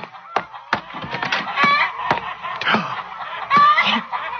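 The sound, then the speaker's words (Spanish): Chickens in a henhouse make an agitated commotion of loud, overlapping squawks and clucks with sharp bursts throughout. “¿Qué es eso? Alberto, algo pasa en el gallinero.”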